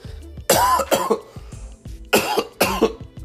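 Harsh coughing from one person, heard alone in two pairs of strong, raspy coughs separated by a short pause, with quieter catches of breath between them.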